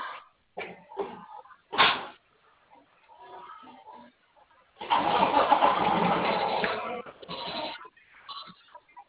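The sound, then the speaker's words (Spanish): A car engine cranks and catches: a few short, sharp bursts, then a sustained rumbling roar for about two seconds that tails off, with softer sounds in between. “Ahí arrancó, ya nomás que acelere.”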